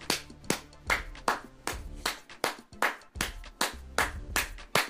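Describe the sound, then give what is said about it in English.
Sharp hand claps ring out one at a time, many crisp slaps in a fairly regular, unhurried rhythm with short gaps between them, fairly quiet overall. “give them the biggest fucking hand clap that we can ever give anybody in life.”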